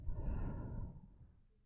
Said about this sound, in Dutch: En adem dan vervolgens een paar keer diep in en uit.